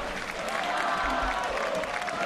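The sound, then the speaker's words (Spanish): Stadium crowd applauding Donato's arrival: a steady, dense wash of clapping and crowd murmur that holds at an even level throughout. “La gente está aplaudiendo aquí porque acaba de llegar Donato.”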